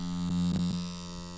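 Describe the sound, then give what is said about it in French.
A tattoo machine's needle buzzes in a tattoo studio with a steady, low electric drone rich in harmonics. It holds at a constant level, with a few faint bumps partway through. “Est-ce que vous entendez le bruit de l'aiguille?”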